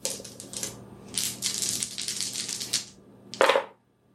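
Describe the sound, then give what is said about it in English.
Five dice rolled during a tabletop role-playing game make a dry, rattling clatter of many small rapid clicks for about three seconds, then a short, louder burst. “I'm only rolling five dice.”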